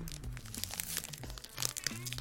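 Crinkling of a corn-potage-flavoured corn snack wrapper being opened, many quick crackles and rustles of thin plastic packaging in a continuous, moderately quiet stretch.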